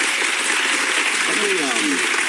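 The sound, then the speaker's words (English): Studio audience applause on a daytime talk show, a steady patter of clapping with a voice briefly audible over it near the end. “She's fishing for anything, and the audience finally go, yeah, okay, let's help her out here. Let's give her a little applause.”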